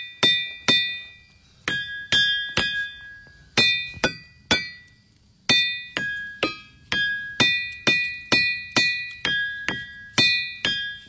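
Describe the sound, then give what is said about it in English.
Ringing boulders at Ringing Rocks Park, Pennsylvania, are struck one after another. Each sharp hit gives a bright, bell-like metallic ring at a different pitch, and many strikes follow in an uneven rhythm, each decaying quickly. “It's hard to believe, but that is the sound of a series of rocks being struck, each with a different pitch.”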